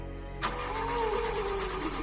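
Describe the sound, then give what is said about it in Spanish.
A car engine cranks but fails to start: a sharp click, then a whirring, droning starter sound with a whine that slowly falls in pitch for under two seconds. “¡Arranca! ¡Arranca! El motor no quería encender y yo intentaba todo para lograrlo.”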